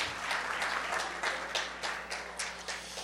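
An audience applauds: faint, steady clapping from many hands, with irregular bursts of sharper claps over a low background hum.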